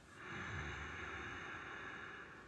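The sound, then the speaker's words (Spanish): A long, steady exhale through a closed mouth and constricted throat during a breathing exercise, heard as a soft, even hiss that lasts about two seconds with no talk. “Y exhalas, boca cerrada, contrayendo garganta.”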